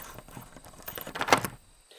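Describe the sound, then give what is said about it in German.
A large old key turns in a door lock, giving a few faint metallic clicks and rattles that build to a brief louder scrape near the end, then quiet. “Herrn Wundersam, der gerade dabei war, die Tür mit einem großen alten Schlüssel zu öffnen.”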